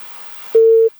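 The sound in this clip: Telephone busy tone after a call-in line disconnects, a single steady mid-pitched beep, short and loud, following faint line hiss.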